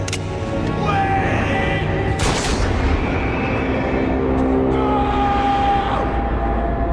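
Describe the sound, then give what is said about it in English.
A pistol shot in a film scene gives a sudden, sharp, loud crack over a dense, constant background of sound. “Tavington just takes out his pistol and shoots this child in the back”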